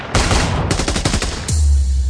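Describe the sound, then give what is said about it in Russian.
Loud, close gunfire from self-loading rifles and a light machine gun at about twenty metres: a dense crackling volley, then a rapid run of distinct shots, ending in a heavy blast with a low rumbling tail. “Кучный огонь с самозарядных винтовок на расстоянии в 20 метров – штука страшная. Огонь ручного пулемета в умелых руках еще страшнее.”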